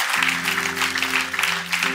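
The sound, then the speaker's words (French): Applause from a church audience after a call to praise, a continuous rushing patter of clapping hands carried over steady, sustained musical tones for about two seconds. “Est-ce qu'on peut applaudir notre Dieu qui nous donne de vivre ça?”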